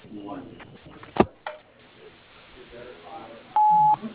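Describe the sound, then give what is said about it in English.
Voicemail beep on a construction company's phone line: a single steady, mid-high tone near the end. Before it, a recorded voice speaks and a sharp click is heard. “Please leave your name and number after the tone, and we will be sure to give you a call back as soon as possible.”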